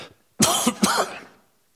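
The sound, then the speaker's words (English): Throat clearing during a sermon: a short, rough burst of a few harsh, gravelly pulses that trail off, with no talk. “Excuse me. Sorry, I got to have something in my throat.”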